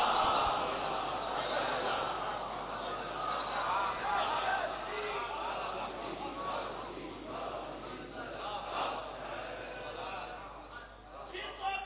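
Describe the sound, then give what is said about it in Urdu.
A crowd at a religious gathering shouting the Nara-e-Haidari slogan, many voices raised together in a sustained, rough chant that carries through the whole stretch with only small dips. “نعرہ حیدری بابا دے بلند، نعرہ سلامت.”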